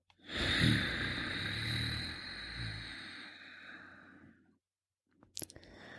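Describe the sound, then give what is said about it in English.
Breathing through the nose with the back of the throat contracted: one long, soft, hissing breath lasting several seconds, followed by silence and a few faint clicks. “So we're going to inhale through the nose while gently contracting the back of our throat and exhale slowly through the nose while keeping that throat contracted.”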